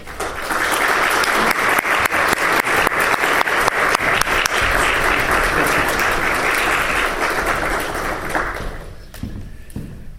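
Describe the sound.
An audience at an evening lecture claps to welcome the speaker: loud, dense applause holds at a steady level for several seconds, then stops fairly abruptly, leaving a few scattered claps.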